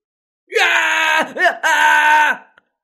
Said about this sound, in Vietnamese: Đầu đớn đến mức làm cho gã không thể chịu được, kêu to thảm thiết